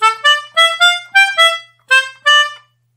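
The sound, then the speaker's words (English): A short musical passage played staccato, a run of detached, bright pitched notes, each clipped short with clear silences between them, moving up and down in pitch, played alone without talk. “A passage played staccato might sound like this.”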